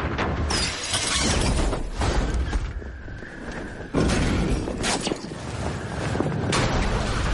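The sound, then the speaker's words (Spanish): A capsule crashes into buildings in a futuristic city while falling under parachutes, producing a loud, sustained roar of smashing and shattering debris. Several sharper impact bursts break through the continuous crashing noise. “Choca contra edificios y sigue cayendo.”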